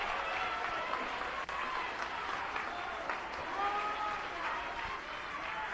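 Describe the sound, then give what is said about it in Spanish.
A church audience applauds during an evening service, a dense, continuous wash of clapping hands at a steady level for several seconds. “Denle un aplauso a Cristo, que él se lo merece en esta noche.”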